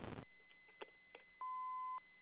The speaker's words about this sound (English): Look after the beep.